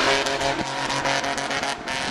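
A car is driven straight off the edge of a corner and falls, its engine roaring loudly and steadily, with a brief dip partway through.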